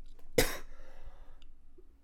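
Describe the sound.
Two sharp, quiet human coughs, the second coming after a pause of about a second and a half, with near silence between them.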